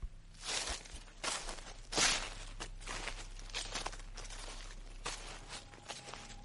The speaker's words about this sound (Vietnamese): bỗng từ sau vườn truyền vào tiếng chân đi trên lá khô loạt xoạt loạt xoạt.